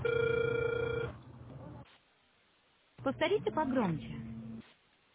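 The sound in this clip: A telephone call's ringing tone while waiting for an answer: one steady electronic tone lasting about a second, followed by a quiet pause on the line and a later burst of muffled line sound.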